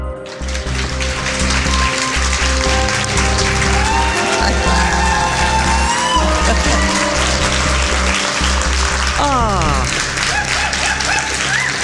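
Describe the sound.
Live audience cheering and applauding at a packed Eldorado show, a dense, steady wash of crowd noise over loud music with a heavy bass line that holds throughout.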